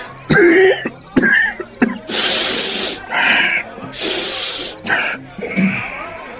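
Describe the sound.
A man coughs as he leaves to fetch his forgotten inhaler: a few harsh, throaty cough bursts separated by long raspy, hissing breaths, loud and without clear speech.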